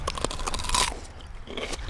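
Crisp crunching as someone bites into a freshly harvested, golf-ball-sized radish, a rapid cluster of loud, snappy cracks in the first second, then quieter chewing.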